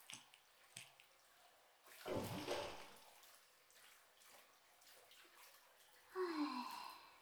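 Hot bath water sloshing as someone lowers into the tub: faint drips and small splashes, one fuller surge of splashing partway through, and another swell of moving water near the end, all quiet.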